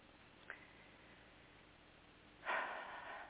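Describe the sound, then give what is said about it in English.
A single deep breath during a guided relaxation exercise: after a quiet stretch with one faint click, a soft, breathy rush swells suddenly and holds for nearly a second before easing off. “Let's take three big deep breaths.”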